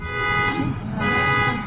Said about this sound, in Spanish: Lo tuvieron que abrir, se accionó la alarma.